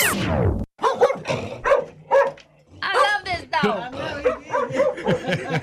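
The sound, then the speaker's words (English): A dog barks in a run of sharp, bark-like bursts, several of them in quick succession, mixed in with people talking over and between them. “I love this dog.”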